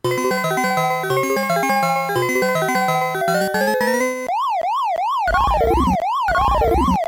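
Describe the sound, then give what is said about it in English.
Electronic arcade sound effects from the video game Super Pac-Man: a bright, beeping chiptune melody for about four seconds, then a loud, rapid siren-like warble that sweeps up and down repeatedly, joined near the end by quick stepping blips. “Oh yeah, that's Super Pac-Man. Yeah, this... That's got to be Super Pac-Man.”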